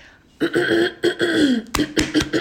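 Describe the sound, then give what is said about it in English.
A person clears their throat repeatedly, making a run of several rough, voiced bursts in quick succession that are loud and close together. “gotta let that throat clear.”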